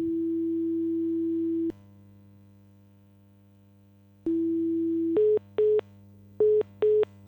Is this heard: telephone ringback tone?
yes